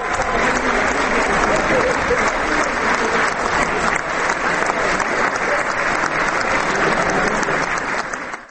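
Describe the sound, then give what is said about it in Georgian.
An audience ovation in the Prague city library after a Georgian folk ensemble sings polyphonic songs. Loud, sustained clapping holds steady for the whole stretch and tapers only at the very end. “საოცრად შესრულებულმა მრავალხმიანმა ქართულმა სიმღერებმა არაერთხელ დაიმსახურა პრაღის ქალაქის ბიბლიოთეკაში შეკრებილი მაყურებლის ოვაცია.”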